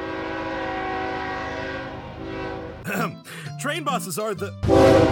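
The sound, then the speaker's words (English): A train horn blares as a comedic interruption, one long, steady, harmonic-rich blast that slowly fades, followed by a voice and a sudden loud burst at the end. “Constantly try your hardest to make a lovely podcast for the world to enjoy, but are always interrupted by Train Boss.”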